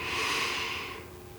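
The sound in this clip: A slow breath drawn in through the nose during a guided calming exercise: a soft, airy rush that swells early, then gradually fades over about a second and a half, with no voice.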